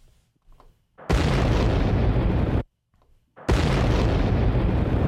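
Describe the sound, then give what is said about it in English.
Two bomb explosion sound effects, each a sudden, loud, roaring burst of broad noise that holds for over a second and then cuts off. A short gap of near silence separates the two blasts. “Drop a double bomb.”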